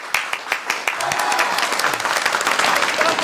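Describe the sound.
Audience applause at a reunion of former sent-down youths, welcoming their old village Party secretary from Fangshan; dense, steady clapping from many hands throughout, with a few sharper claps standing out near the start.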